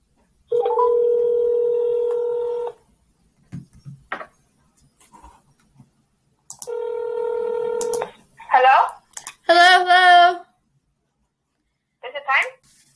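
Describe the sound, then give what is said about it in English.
Telephone tones sound as a call is placed: two long, steady electronic tones separated by a pause, with short bursts of voices talking in between and after. “So right now, I am going to call her. I'm gonna dial and see if she answers.”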